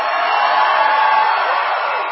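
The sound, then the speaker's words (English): A crowd chants "USA" ahead of a presidential speech. The massed voices merge into a steady, muffled, narrow-band roar that stays level throughout. “Ahead of the president's speech, patriots in the crowd shouting, USA! USA! USA! USA!”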